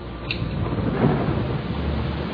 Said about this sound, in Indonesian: Hujan deras dan angin kencang membuatku kedinginan.